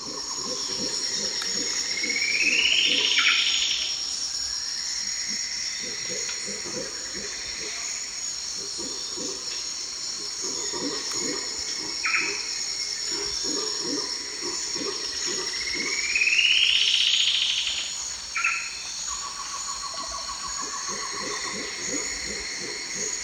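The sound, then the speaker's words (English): Cocha antshrike, buff-breasted wren and red howler monkey calls over a constant high insect drone, with repeated low pulsing calls and a few bright rising whistled phrases. “Two, with Cocha antshrike, buff-breasted wren, red howler monkey, and others.”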